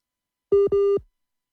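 Two electronic phone-line tones while a radio call-in listener is being reconnected. The steady mid-pitched beeps are separated by a brief gap, the second slightly longer, then silence.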